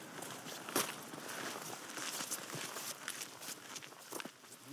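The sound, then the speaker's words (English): Footsteps of people walking along the western lakeshore of Derwentwater, many steady crunching steps at an even walking pace, continuous and fairly quiet. “Now, we're going on past the jetty. Where are we heading towards at the moment? We're walking down the western shores of Derwentwater, heading back towards Keswick.”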